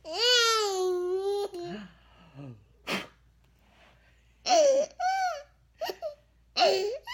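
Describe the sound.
A toddler babbles and squeals while playing peekaboo with his father in a hospital room. A long, bright sing-song coo opens the sequence, followed by several short, high vocal bursts separated by brief pauses.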